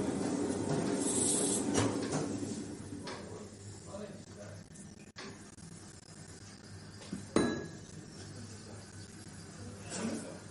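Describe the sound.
Plates are put away into a cupboard in a workshop, giving a few clinks and sharp knocks, while people talk over the handling.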